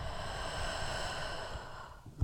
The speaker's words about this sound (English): Do this deep breathing again, deep breathing through your nose and deep breathe out through the mouth.